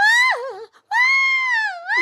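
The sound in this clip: A person imitates a frightened, cartoon-style scream: a high, sustained voiced cry with a wavering dip, a brief break, then a second long high wail that sags and rises again at the end.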